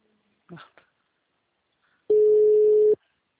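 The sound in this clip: An outgoing call's ringing tone sounds as a single steady, fairly loud telephone beep lasting just under a second. A brief faint voice comes earlier, followed by quiet before the tone.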